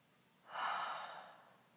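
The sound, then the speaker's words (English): A single deep cleansing breath during a guided breathing exercise, a soft airy rush that swells quickly and then slowly tapers away, quiet and alone with no talk. “just cleansing breaths, let's call them cleansing breaths”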